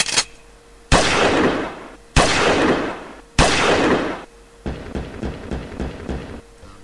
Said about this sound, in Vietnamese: Lại thêm một tràng súng nổ nữa, một tràng nữa, lại có tiếng súng lớn.